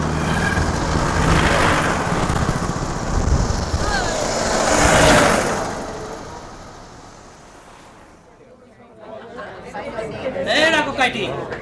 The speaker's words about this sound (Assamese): ৰাস্তাৰ কাষে কাষে আহ, কিমান গাড়ী মটৰ আহি আছে দেখা নাই জানো, ভালকৈ আহ।